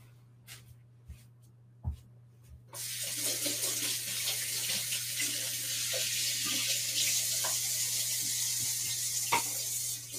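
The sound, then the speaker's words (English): Tap water runs into a sink as someone washes oil-covered hands while cooking taquitos. A few faint knocks come first, then a loud, steady rush of water continues to the end. “And then I'm going to wash my hands because they're covered in oil.”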